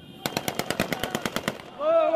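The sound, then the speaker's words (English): Automatic gunfire in urban fighting at a checkpoint roundabout in Sirte, aimed at flag bunting on lampposts: a rapid burst of about a dozen evenly spaced shots, followed by a loud wavering voice-like tone. “the shooting you hear is them trying to shoot down green flag bunting that's attached to one of the lampposts in front of this major checkpost”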